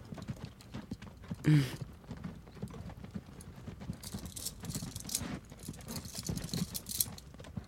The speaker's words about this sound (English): Where are we? Well, it appears to be a slave trader's wagon.